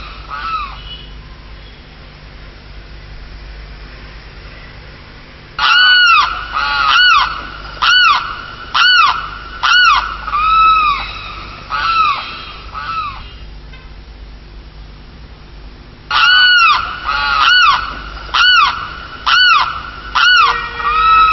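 Loud, harsh honking calls of birds in flight, sounding in two long runs of many rhythmic calls separated by a stretch of faint hiss, each honk bright and strongly harmonic.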